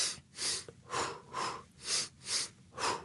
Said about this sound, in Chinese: 但我深呼吸咧，頭先做深呼吸啊